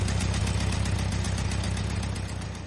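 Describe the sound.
An old egg-shaped car's engine runs with a steady, low, rhythmic putter as the car drives off, easing slightly in loudness near the end.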